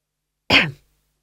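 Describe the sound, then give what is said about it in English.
A man gives a single short, throaty cough with a sharp onset and a quick fade, heard alone. “He coughed.”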